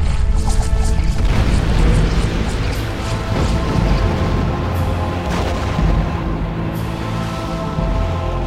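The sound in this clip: An explosion blasts through a cell wall inside a room, a loud, sustained roar of crashing, rumbling noise that holds steady throughout with repeated heavy impacts and debris clatter.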